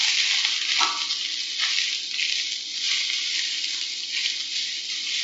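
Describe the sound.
Fairly large baby marrows frying in a pan, half a batch at a time, giving a steady, bright sizzling hiss broken by a few brief soft bumps.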